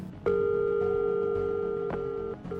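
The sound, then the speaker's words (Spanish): A telephone tone after a cut-off call starts abruptly and holds steady and even, then breaks briefly near the end before resuming, with no voices. “justo se cortó la llamada con Olaf”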